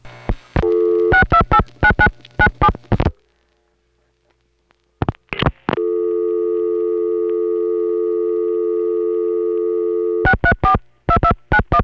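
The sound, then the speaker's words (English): Telephone dialing on the 628 demonstrator, routed through Broadway 24A: a quick run of short tone bursts, a silent gap, a few more bursts, a long steady tone, then another run of short bursts. “Now on the 628 demonstrator dialed normally 7 digits. That goes through Broadway 24A, recording ID 21220.”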